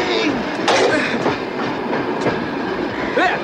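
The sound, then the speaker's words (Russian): A train pulls away with a steady, loud rumble and rhythmic rail clatter that runs without a break through the whole stretch. “Поезд уходит, Иван”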